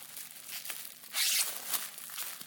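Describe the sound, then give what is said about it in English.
Crinkling, tearing packaging as bubble wrap and cardboard are pulled off a heavy, neatly wrapped item; a steady papery rustle with one louder burst of crackling in the middle, no voices. “let's unwrap the other bit before I tell you. More bubble wrappy sounds.”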